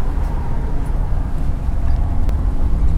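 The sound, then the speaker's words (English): Car road noise on the Harbor Freeway just after leaving San Pedro, a loud, steady low rumble of tyres and engine that continues without break and without talk. “Just left San Pedro. We're on the Harbor Freeway.”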